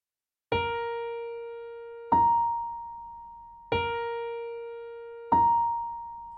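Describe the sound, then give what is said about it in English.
Four struck pedal-tone notes from a TV drama score ring out alone, one after another at an even pace. They alternate between a lower and a higher pitch, and each note sustains and slowly decays before the next. “And it actually starts with just the pedal tone. The notes sound like this.”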